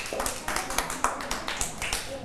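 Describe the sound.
Children clap their hands in a steady, fairly even rhythm, a quick run of many sharp claps at moderate loudness.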